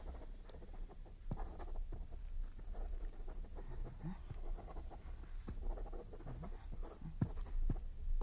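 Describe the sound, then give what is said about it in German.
A pen scratches across a sheet of paper while someone writes a name and address, making quiet, steady scribbling strokes broken by small taps as the pen lifts and lands again. “Hier ist ein Blatt Papier. Wozu? Schreiben Sie. Ja, was soll ich schreiben? Ihren Namen und Ihre Adresse.”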